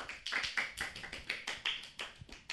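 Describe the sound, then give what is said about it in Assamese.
Hand clapping rewards quiz teams after a contest. A small group claps quickly and unevenly, giving many crisp, separate slaps. The clapping is faint throughout and no voices are heard. “প্ৰতিটো দলকে নিজৰ বাবে এজাউৰি হাত চাপৰি বজাবলৈ জনোৱা হ'ল।”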